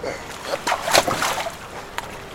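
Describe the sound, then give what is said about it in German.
Feet splash down into ankle-deep water at the shore of a bay after a jump over the low side of a rowboat: a short cluster of wet slaps and sloshing bursts that quickly fades. “Meine Füße landeten spritzend im knöcheltiefen Wasser direkt am Ufer.”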